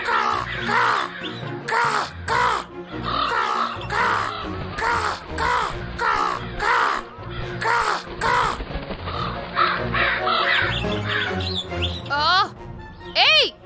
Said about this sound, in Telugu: ఆ కాకి అక్కడ ఏం చేస్తుంది? హే, షూ షూ, నా చెట్టు మీద నుంచి వెళ్ళిపో వెళ్ళిపో.